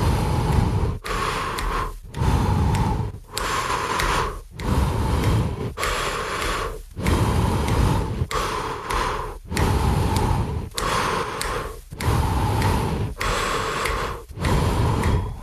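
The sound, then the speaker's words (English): Heavy rhythmic breathing that demonstrates a runner's 1-to-2 pattern, taking one inhale or exhale every two steps: loud, breathy strokes follow one another in a steady, even cycle, many in a row with brief gaps between them. “let's just say you have to now transition to a 1-to-2, whereas every 2 steps you take that inhale or exhale. So it sounds something like this.”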